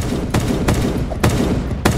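Gunfire in a video game: four sharp, loud shots at uneven intervals, cutting through dense, continuous game noise.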